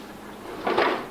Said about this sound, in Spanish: Una puerta de hierro se cierra a su espalda.